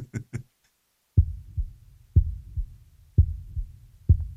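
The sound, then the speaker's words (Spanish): A muffled heartbeat sounds as four slow, deep thuds, each followed by a softer second beat in a steady rhythm. Two short, sharper knocks come just before it. “Pero el corazón siguió latiendo, con un sonido ahogado.”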